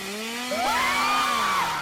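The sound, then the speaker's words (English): A chainsaw running with a steady, loud buzzing drone, and a higher whine joins partway through; no talk. “here comes their buddy with the chainsaw”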